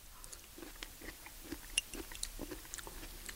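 Faint chewing of small, pinky-sized cubes of canned persimmon in syrup, with many soft, quick bites and moist crunches in an irregular rhythm.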